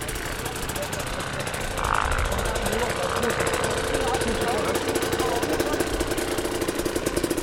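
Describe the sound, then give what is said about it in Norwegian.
A Yamaha T7 motorcycle engine runs at an off-road riding event, giving a steady, rough, rumbling drone that carries through the whole clip as a constant noisy roar without distinct revs. “Her står vi med en eh, Yamaha T7.”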